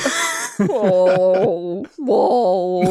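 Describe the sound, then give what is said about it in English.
A voice imitates the groaning of a giant, lumbering monster made of dolls in a tabletop role-playing game. Drawn-out, wavering moans are broken by short pauses. “Gable is just covered in dolls right now to become a giant monster made of dolls that's just lumbering around groaning.”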